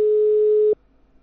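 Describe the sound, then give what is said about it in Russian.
A telephone tone heard while a call is being dialed: one steady, mid-pitched tone lasting under a second. It cuts off abruptly and leaves only faint background noise. “Сейчас набираю.”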